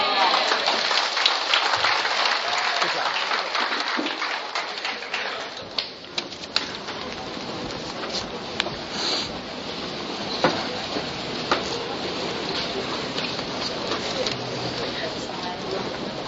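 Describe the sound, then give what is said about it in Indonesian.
Applause from a church audience: steady, dense clapping that runs throughout, with voices mixed in. “Sekali lagi kita berikan aplaus buat Brother Richard Alves dan Jenny yang sudah membantu kita.”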